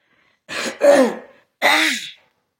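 A person clears their throat in three harsh, breathy bursts, the second and third longer and fuller than the first, with no speech around them.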